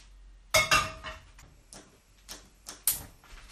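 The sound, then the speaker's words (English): Bread, water, cinnamon and butter are tipped into a saucepan for bread sauce. Several light clinks and knocks of containers against the pan ring out irregularly, some sharper than others, with quiet moments between. “So I'm going to put it all in a pan now and start cooking it.”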